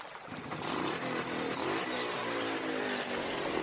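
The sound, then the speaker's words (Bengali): A motorcycle engine revs as the bike sets off, a steady, buzzing drone held at an even, fairly faint level throughout with no other sounds. “এবার বাইকের শব্দটা ক্রমে বেড়ে যাওয়াতে বুঝতে পারলাম সেটা রওনা দিয়েছে”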